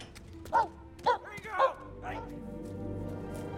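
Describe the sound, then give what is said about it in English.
A dog barks outside a shop at night during a lightning storm: three sharp barks in quick succession, then a softer fourth, over a low steady background hum. “A man comes outside to his dog. The dog runs off.”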